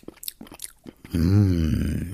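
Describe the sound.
Biting and chewing a piece of Gugelhupf cake: a few soft, crisp bites and chews, then a long, loud appreciative humming voice carries through the rest.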